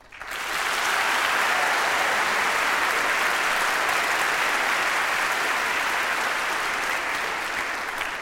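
Audience applause welcomes an 18-year-old violinist to the stage: dense, steady clapping rises quickly at the start and holds at an even level throughout.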